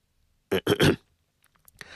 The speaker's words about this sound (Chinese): 程涛咳嗽一声，终于打破了尴尬。